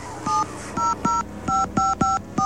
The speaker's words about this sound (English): And then we'll dial the 700 number.